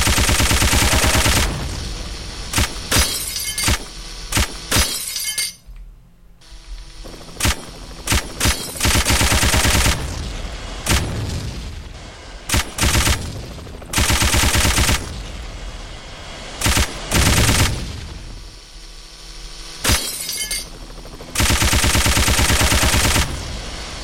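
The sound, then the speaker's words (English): Rapid gunfire from a video game in which the player shoots down a growing wave of enemies, heard as many loud, dense bursts of machine-gun fire with brief gaps between them, and no talking. “なんか敵が多くなっちゃったんですけど、頑張って撃ち落としてね。”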